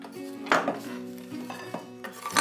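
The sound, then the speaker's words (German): Chopped, cooled caramel brittle is tipped into a cooking pot, making a few sharp, hard clatters and clinks against the pot with quieter rattling of pieces between them. “Auch der mittlerweile kalte Karamellkrokant wird zerhackt. Jetzt alles in den Topf.”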